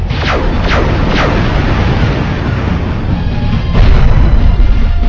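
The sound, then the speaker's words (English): Plasma missiles firing: a few quick zaps that fall in pitch sweep over a loud, dense roar with booming lows. The roar surges louder near the end. “Our shields are holding. Fire plasma missiles.”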